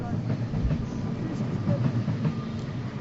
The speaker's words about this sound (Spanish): Hay que estar en silencio para escuchar el paso del tren.